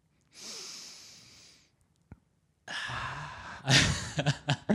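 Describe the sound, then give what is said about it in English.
A person demonstrates a deep, calming breath: a long, soft rush of air, a brief click, then a louder, noisier breath that ends in a few short puffs. “Sometimes you just gotta really take a nice, deep, soothing, calming breath. What does that sound like?”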